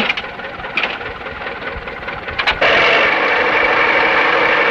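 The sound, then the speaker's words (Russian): A tractor engine runs as it pulls a trailer loaded with sacks, first idling with a knocking rattle and a few clanks, then turning into a louder, steady drone that holds to the end. “Трактор тянет за собой прицеп.”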